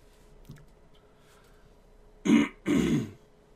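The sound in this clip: Throat clearing from a phlegmy early-morning throat: two rough, gravelly rasps in quick succession, both fairly loud, after a stretch of near silence.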